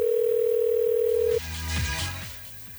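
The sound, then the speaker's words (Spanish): A telephone dial tone sounds while a call is being placed: a loud, steady, unbroken hum that cuts off abruptly about halfway through, leaving fainter low rumbling noise afterward. “Estamos llamando aquí a un hombre para preguntarle acerca de los cachos.”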